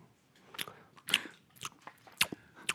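Crunchy chewing of nuts held close to a microphone: several sharp bites and crackling crunches at a fairly steady pace, heard alone without talk.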